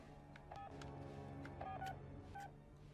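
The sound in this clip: Telephone keypad tones sound as a number is dialed: a few short, faint beeps separated by brief pauses over a low background hum.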